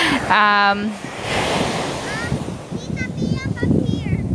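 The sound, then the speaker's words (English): Sea waves give a broad, rushing surf noise that swells and recedes, with a child's voice and other talking heard over it. “So yeah, it's the sound of the waves, right? Of the sea. It's very relaxing.”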